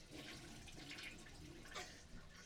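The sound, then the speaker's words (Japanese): A toilet flushes, a faint, steady rush of water that runs through the whole stretch without letting up, with no talking over it. “流してる音まで入っちゃった。”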